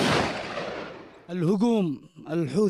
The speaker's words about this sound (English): Near Taiz, in southwestern Yemen, they've been firing artillery and mortars at Ansar al-Houthi positions.